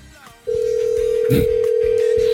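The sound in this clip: A telephone line tone as a prank call is placed, cutting in abruptly and holding steady at one pitch, with a brief voice heard under it midway.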